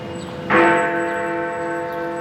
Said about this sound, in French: C'est la plus grosse cloche de la ville qui sonne. On l'appelle Big Ben.